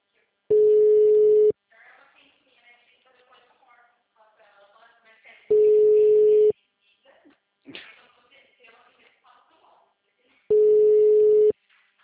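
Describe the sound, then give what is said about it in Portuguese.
An outgoing call's ringing tone that goes unanswered: three steady, one-second tones about five seconds apart, with people talking quietly in the gaps between them. “Não, mas tá chamando. Só ele atender.”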